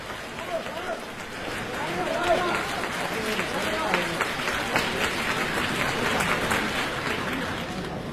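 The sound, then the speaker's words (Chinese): An audience applauds the performers at a xiangsheng crosstalk comedy show. The clapping swells after a moment into a dense, sustained wash that continues to the end, with voices over it. “谢谢大家掌声。 对， 掌声对演员是鼓励”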